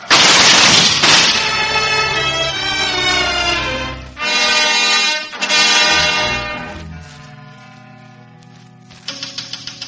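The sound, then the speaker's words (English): A firing squad fires a rifle volley: one loud, sharp burst opens, then ringing, sustained tonal sound carries on and slowly fades. “Firing squad! Ready! Aim! Fire!”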